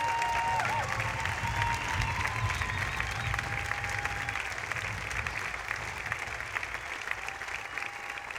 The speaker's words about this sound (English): It takes a lot of people to put on a show like this, so please give them a round of applause.